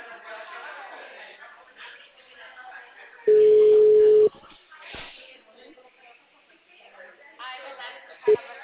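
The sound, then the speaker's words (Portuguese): A single steady ringback tone lasting about a second sounds on an outgoing phone call, with talk before and after it and one short beep near the end. “Tá chamando.”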